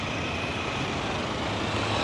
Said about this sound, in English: The cars don't like to stop for pedestrians sometimes.